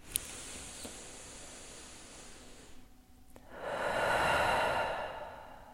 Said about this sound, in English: Just take some really deep breaths.